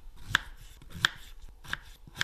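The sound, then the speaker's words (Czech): A knife chops Red Anna potatoes into roughly one-centimetre cubes: four sharp, evenly spaced cuts with quiet handling noise between them and no voices. “Je to Red Anna. Takže červená anča. Teď budeme krájet. Na jak velké kostičky?”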